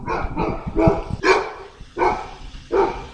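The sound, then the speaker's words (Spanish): Small dogs barking at an outdoor town square: about six sharp, fairly high yaps in uneven bursts, fairly loud and with no talk over them. “ahí escuchábamos unos perritos ladrando”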